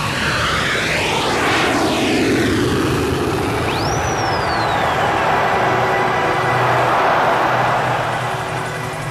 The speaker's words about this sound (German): Anderthalb Stunden später hob sein Jumbo-Jet nach Rio de Janeiro bei grauem Himmel und leichtem Nieselregen schwerfällig von der Startbahn ab.